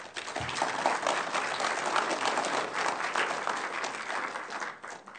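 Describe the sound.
An audience applauds to welcome a lecturer with dense, sustained clapping that holds steady for about five seconds, then thins near the end.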